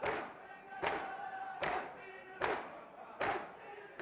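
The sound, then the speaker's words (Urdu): A large crowd of mourners beats their chests while reciting nohas for Imam Hussain at Bayn al-Haramayn. Steady thuds come about every 0.8 seconds, roughly six in all, over massed chanting voices, fairly faint. “نواخانی اور سینہ زنی کی آوازیں آپ سن رہے ہیں اور ایک بڑی تعداد ہے جو یہاں پر سید الشہدا حضرت امام حسین علیہ السلام کو نذرانہ عقیدت پیش کر رہی ہے سینہ زنی اور نواخانی کے ذریعے.”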